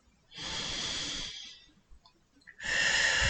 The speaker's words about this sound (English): So let's just breathe. Breathe in and breathe out.